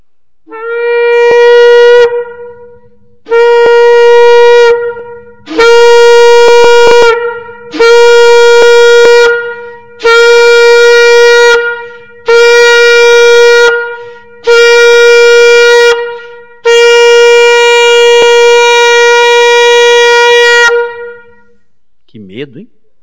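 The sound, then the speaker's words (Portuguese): Trumpet blasts of the kind Jews of ancient days knew: eight loud, sustained, brassy tones held at a steady pitch, separated by short gaps. Seven are of similar length and the final one is longer. “Essa é a trombeta. Quando falava trombeta, naqueles dias, os judeus pensavam nesse som.”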